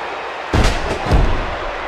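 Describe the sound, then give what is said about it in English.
A wrestling double arm slam off the top rope lands as two heavy, booming thuds about half a second apart over steady background noise. “Double arm slam off the top rope. But the Iron Sheik was able to kick out of that.”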